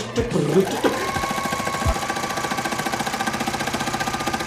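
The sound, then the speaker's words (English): Sewing machines running with colorful fabrics give a fast, steady mechanical whir that pulses in an even rhythm throughout, with a few brief thuds and clatters near the start. “put them behind sewing machines. Miles and miles of sewing machines with colorful fabrics.”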